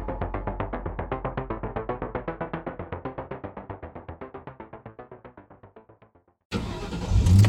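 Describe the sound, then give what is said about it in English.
An unmarked Chevy Impala's engine cranks in a long run of rapid, even mechanical pulses that slowly fade, then catches with an abrupt, loud roar that swells as the gas is hit. “Jeremy Banks jumps in his unmarked Chevy Impala and hits the gas”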